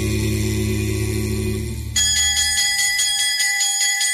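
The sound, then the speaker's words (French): A bell rings in a steady, quickly repeating pattern of bright, shimmering tones, starting abruptly as a low sustained tone cuts off. “La cloche a sonné”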